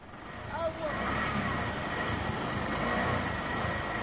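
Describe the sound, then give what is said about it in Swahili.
Road traffic of cars and cargo trailer trucks on Obama Road from Changamwe, Mombasa, toward Moi Airport: a continuous, broad rumbling roar of engines and tires that stays steady throughout. “Ukitoka mjini Mombasa ukiwa Changamwe, kuna barabara itwayo Obama Road hadi Moi Airport ndani kabisa. Unasikia hapo magari, trailer za kubeba mizigo.”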